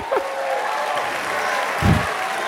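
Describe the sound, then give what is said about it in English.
An audience applauds new students at an institution's welcome: steady, dense clapping continues throughout at a moderate level. “Now, I want to also welcome, should I use this word, the dopest newcomers in our institution, our new students. Give yourselves a hand.”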